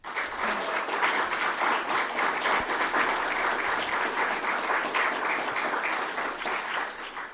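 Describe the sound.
Sustained audience applause welcomes a panel on a youth plaintiffs' Constitution and Public Trust case, a dense, steady wash of many hands clapping at an even level throughout, tapering slightly at the very end.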